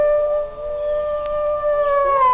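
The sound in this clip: Red wolf howling: a long, sustained, tonal howl with clear harmonics that holds a fairly even pitch, while a second howling voice overlaps near the end.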